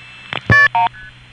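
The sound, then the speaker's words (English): Multi-frequency telephone tones from dialing 411 on a 1979 line routed to a TSPS operator system: a few short tone bursts, the two middle ones loud and steady, then a faint lingering tone over a low hum. “Here's what happened on that last call just when I dialed 411.”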